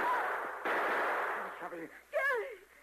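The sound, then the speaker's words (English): A gunshot in a western drama lands as an abrupt, loud blast with a long noisy tail that slowly fades. A voice then cries out briefly over the fading tail. “you shot him. He fell to the ground.”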